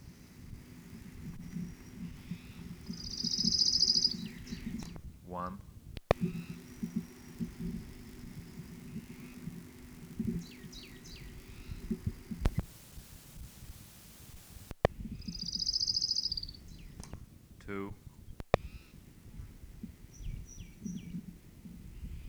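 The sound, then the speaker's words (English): Orange-crowned warbler song: two high, buzzy trills spaced well apart, each brief and fairly faint over a low background hiss with occasional sharp clicks. “Orange Crowned Warbler, number one.”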